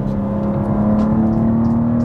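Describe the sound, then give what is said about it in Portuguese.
Car engine with the automatic gearbox in M2 sport mode, traction control on and engine, chassis and brakes in their most intense setting: a loud, steady low drone with a constant humming pitch and no talk. “eu tô agora com o modo M2 ativado, com o controle de tração habilitado, mas o motor e o chassi e o freio no modo mais intenso possível.”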